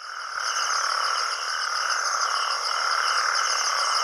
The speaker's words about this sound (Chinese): 这是雄性黄条背蟾蜍求偶的叫声。体型较大的雄性黄条背蟾蜍占据了水塘的最佳位置，用叫声吸引雌性。